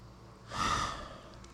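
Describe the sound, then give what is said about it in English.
One deep grounding breath, a soft airy swell that rises and fades over about a second. Quiet and alone, with no talk. “Two deep grounding breaths in the gut. Fill the chest. Let it all go. One more.”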